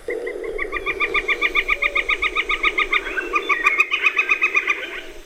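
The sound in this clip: A northern flicker gives its wicca territorial call: a rapid, steady series of many bright, evenly paced repeated notes. The calls are loud and rhythmic throughout and crowd closer together toward the end.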